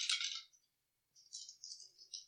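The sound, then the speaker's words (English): Six dice rolled during a tabletop game, giving two bursts of light, bright rattling clatter separated by a short pause, fairly faint and alone. “So it says I'm supposed to roll 6 dice.”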